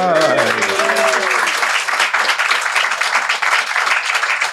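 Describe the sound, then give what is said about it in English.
Audience applause fills a live Halloween night show, a dense and continuous clapping roar that holds at a constant level. A voice speaks briefly at the start. “It's a lovely audience, but we've never had to prompt applause so hard.”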